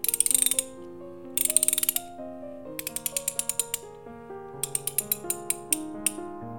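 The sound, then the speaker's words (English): A socket wrench ratchets through many sharp, rapid clicks in short bursts, with clear metallic ringing tones sustained between them and no voices. “Now, give me socket wrench. There.”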